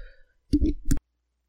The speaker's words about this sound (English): sorry, I had to clear my throat.